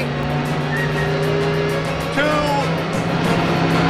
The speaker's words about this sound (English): He accelerates towards them.